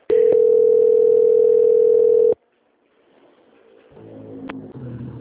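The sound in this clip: A steady, loud telephone tone sounds during a call transfer, holding one even pitch for about two seconds before cutting off abruptly into a low hiss, with faint background noise rising near the end.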